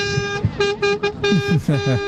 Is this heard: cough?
no